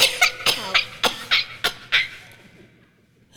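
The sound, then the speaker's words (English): A toy doll coughs when squeezed, giving a run of eight short, hoarse, evenly spaced coughs, fairly loud and alone, then fading into near silence. “If you give her a playful squeeze, she will cough”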